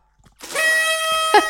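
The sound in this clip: A horn toots one loud, buzzy, sustained blast of more than a second, ending with two short, pulsing accents.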